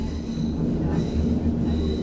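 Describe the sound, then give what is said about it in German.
A Berlin S-Bahn train runs toward Potsdamer Platz station with a steady, loud low rumble, a tonal hum and a faint high wheel squeal; no talk. “Nächste Station. Potsdamer Platz. Übergang zur U-Bahn-Linie 2 und zum Regionalverkehr.”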